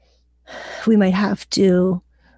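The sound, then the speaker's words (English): A deep breath in followed by a long exhale during a guided relaxation: a soft airy intake, then a sighing outbreath with a faint voiced, hum-like tone, brief and alone. “And just breathe in and exhale.”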